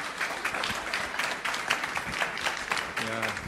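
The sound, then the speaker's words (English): An audience applauds to welcome a speaker to the stage, a dense and steady clapping throughout, with a voice starting to speak near the end. “So let's put our hands together and welcome Patrice.”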